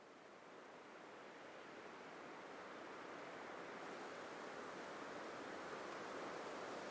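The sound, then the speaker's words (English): Video game wind picking up: a faint, steady, hissing rush of air that slowly swells in loudness over several seconds, alone with no voices. “The wind seems to be picking up.”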